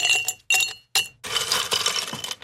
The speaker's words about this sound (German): So ein Eiswürfel.